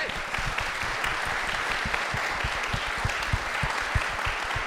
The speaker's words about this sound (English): Please give it up for Caitlin Gill.